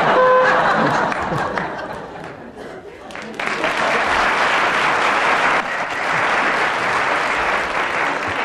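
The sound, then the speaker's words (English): Audience applause breaks out after a round is won on a comedy panel game, dipping briefly early on before swelling into fuller, sustained clapping that holds to the end. “that spontaneous eruption of... appreciation from the audience indicates that Tim Brooke-Taylor's won that round”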